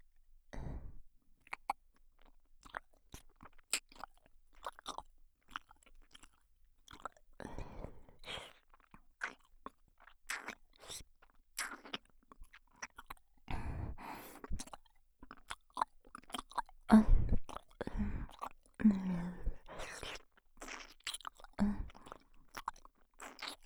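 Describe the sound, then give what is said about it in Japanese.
Wet mouth sounds come from licking the outer rim of an ear: many faint smacks, clicks and slurps in an irregular rhythm, soft throughout. “次は反対側のお耳を舐めさせていただきます。まずは外の縁から。”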